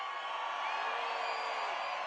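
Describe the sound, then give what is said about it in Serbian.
Crowd in a Zagreb kafana at a concert, screaming and cheering in a sustained, dense roar of high whoops and shouts that holds steady for about two seconds. “Čujem, make some noise ili kafanci, da čujem jedan vrisak.”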